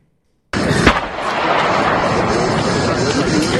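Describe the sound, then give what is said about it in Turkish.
Gunfire from a long-barrelled gun, fired by an armed man barricaded in a house during a standoff with gendarmes: after a brief silence a loud blast breaks in, a sharp crack follows, then a continuous noisy rumble holds to the end. “Bir şahıs uzun namlulu silahla kendini rehin aldı. Saldırgan peş peşe tetiğe bastı.”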